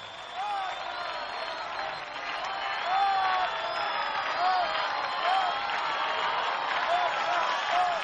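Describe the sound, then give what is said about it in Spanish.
Crowd applause and cheering for a band at a live music performance, moderate and steady, swelling slightly after a few seconds, with short whistles rising above the clapping. “Güeyes Correntinos, un fuerte aplauso.”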